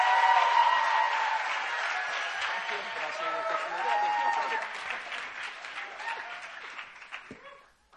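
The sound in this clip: Applause from a church retreat audience welcoming a speaker, a sustained, even clapping with voices mixed in, holding steady before tapering off and fading out near the end.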